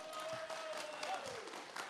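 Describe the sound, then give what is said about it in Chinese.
Faint audience applause welcomes a guest to a show, a soft, even patter of many hands with a voice over it. “来，掌声欢迎”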